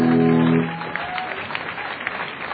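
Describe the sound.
Audience applause welcoming the band the London Soul to the stage, beginning under a brief sustained musical tone, then continuing as a steady, moderately loud patter of clapping.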